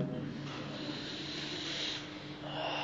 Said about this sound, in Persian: آقا نفس عمیق نکشیدید